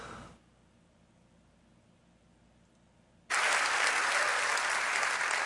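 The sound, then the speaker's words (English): A crowd in San Antonio bursts into clapping and hooting after a near-silent stretch: dense applause starts abruptly and stays loud and steady to the end. “And listen to all those bigots in San Antonio just a-clapping and a-hooting.”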